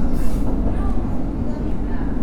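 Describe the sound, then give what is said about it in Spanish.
A passenger train rides along the tracks, giving off a steady, dense low rumble with constant rolling track noise and no clear pauses. “Viajo en el tren Mitre. Vengo de José León Suárez y voy a Retiro.”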